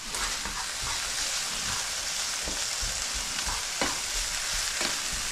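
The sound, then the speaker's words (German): Bacon sizzling as it fries in a pan: a dense, steady hiss with a few sharper crackles and pops throughout, and no voices. “Oh, der Speck da hinten geht auch schon krass ab.”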